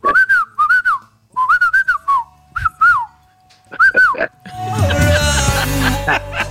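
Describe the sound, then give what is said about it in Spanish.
A person whistles to call a dog, sending out a string of short, warbling, fairly high whistles in quick groups. Laughter and louder mixed noise then take over. “a la pobre enseñamos a silbar, hombre. Yo sería un buen silbador si tuviera dientes. Se me escapa la llamada.”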